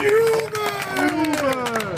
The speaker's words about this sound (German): Jubel!